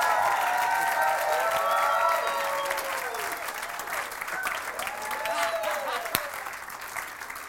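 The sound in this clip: An audience applauds and cheers to welcome a pastor couple to the stage in Kennesaw, Georgia. Dense, sustained clapping runs throughout, with whistles and shouts rising and falling above it.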